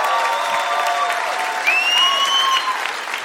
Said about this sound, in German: Komm, ein Applaus für Moritz!